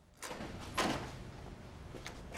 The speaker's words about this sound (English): Saul opens the door to Carrie.